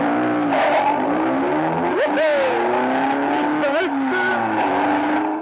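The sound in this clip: A car drives off in a practice driving lesson on the way to a gas station, its engine note climbing steeply a couple of times amid steady motor noise, with a hint of tire skid.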